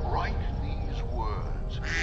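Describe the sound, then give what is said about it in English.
A duck quacks in a run of loud, nasal, rasping calls that ring out continuously with no pause between them. “what is that? A quack?”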